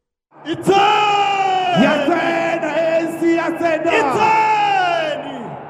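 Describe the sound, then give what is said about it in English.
Thousands of supporters cheering and yelling at an ANC election rally in a Soweto stadium: a loud, dense roar of many voices with rising and falling shouts that holds steady after a brief silent start. “On Saturday, it held an election rally at a Soweto stadium. Thousands of supporters cheered.”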